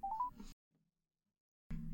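Telephone dialing tones as a call is placed to a hotline: a quick run of a few short beeps stepping upward in pitch, then silence, then a sudden burst of noise.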